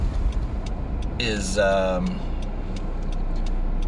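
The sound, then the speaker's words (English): Steady low engine and road rumble from a car being driven, continuous throughout, with a brief voice-like tonal sound partway through. “Not used to driving and talking anymore.”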